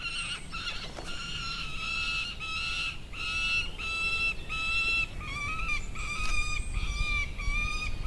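Begging calls of young peregrine falcon fledglings that have just left the nest, many high, whining harmonic wails repeated in quick succession with short gaps, moderately loud over a faint steady background.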